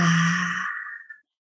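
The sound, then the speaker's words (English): A single deep exhale during a guided breathing exercise comes out as a long breathy sigh with a slight voiced tone at the start, tapering away after just over a second. “So let's exhale all the air out. Exhale.”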